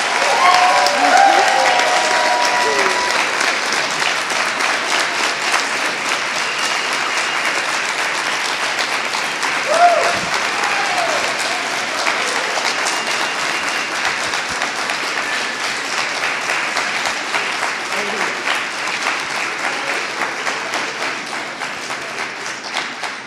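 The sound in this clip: Loud, dense applause from an audience congratulating youth poets after their performances. The clapping stays steady and full for the whole stretch and thins slightly at the end.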